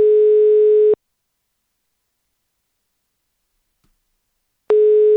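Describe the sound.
A telephone call goes unanswered: a steady, mid-pitched tone sounds for about a second, then about four seconds of silence, then the same tone starts again.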